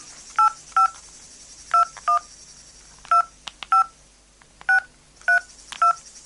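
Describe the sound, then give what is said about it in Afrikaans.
Telephone keypad tones as a number is dialled: nine short, bright beeps in uneven pairs and clusters over a faint steady hiss. “Ek gaan dit gou bel.”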